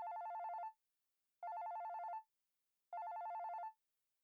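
A telephone rings during a call to a girlfriend: three faint, evenly spaced trilling rings, each under a second long and separated by short silences, with no talk.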